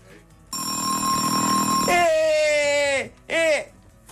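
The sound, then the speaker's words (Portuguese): School bell ringing: a long, bright electronic ring lasting about two and a half seconds, followed after a short gap by a very brief second ring. “Esse foi um segundo toque curtíssimo. Foi, foi curtíssimo, foi curtíssimo.”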